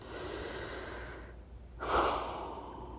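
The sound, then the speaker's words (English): A deep breath during a guided relaxation session: a long, soft, rushing inhale, a short silent pause, then a fuller, airy exhale that slowly tapers off. “Let's take one last deep breath together for now.”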